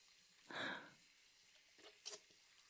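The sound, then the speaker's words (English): Water running briefly while something worked in with the fingertips is rinsed out. A soft half-second gush of splashing comes first, then two faint brief splashes. The whole clip is quiet. “Now I'll rinse it out.”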